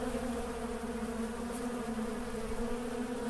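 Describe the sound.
Insects buzzing in a forest as they take off, a dense, steady, droning hum with a strong low tone and rich overtones that holds at an even level without pause throughout.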